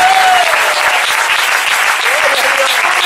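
Applause from a church audience at a preaching service: dense, steady clapping that fills the whole clip at a loud, even level without pause.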